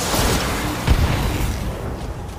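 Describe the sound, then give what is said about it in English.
Weapons fire in a mech combat video game, aimed at an enemy commando unit while long-range missiles are held back. A loud boom-like burst lands near the middle over continuous dense rumbling noise. “We'll shoot at the commando. We'll hold off on the LRM. Engaging.”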